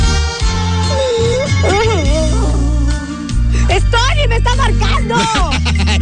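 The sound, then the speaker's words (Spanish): An incoming call on a phone rings with a loud musical ringtone, a bass-heavy tune with a wavering melody that plays continuously without pause. “¡Me está marcando! A ver, vamos a contestar esta llamada”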